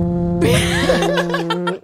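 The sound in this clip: A voice imitating a loud fart likened to a steamboat: a buzzy, sputtering vocal blast lasting over a second, ending in a few short choppy bursts.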